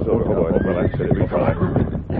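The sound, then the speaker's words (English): A horse whinnies outside a shack at night after a ride, one drawn-out neigh whose pitch rises and falls, set over a dense, continuous background. “His horse is over there in the lean-to, Tonto.”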